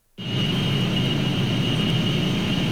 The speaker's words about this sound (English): Do you know what that sound is? If you live near one of the 3,000 data centers around the country, it might sound familiar.